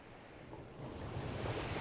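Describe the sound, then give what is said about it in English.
Waves crashing against a cliff make a broad, rushing roar that swells louder in the second half, with a windy hiss mixed through it. “Waves crashed against the cliff.”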